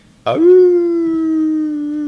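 A single long wolf howl rises sharply at the start, then holds one steady, fairly low pitch for about two seconds, loud and alone.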